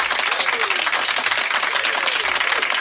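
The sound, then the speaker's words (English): A round of applause plays on a morning radio show, with even, dense clapping from a crowd holding steady for a few seconds. “Give yourself a round of applause for waking up at this time of the morning.”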